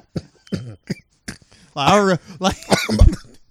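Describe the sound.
Short, harsh coughs and throat clearing break out in a few bursts, mixed in with voiced talking and laughter-like sounds. The last burst carries a brief low thump.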